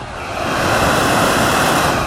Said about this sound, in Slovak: Na chvíľočku preruším nahrávanie, aby som zachytil zvuk plynového variča,